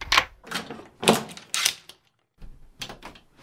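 Clacks and rattles of a front door being unlocked, several locks worked in quick succession with sharp metallic clicks and a brief pause between bursts.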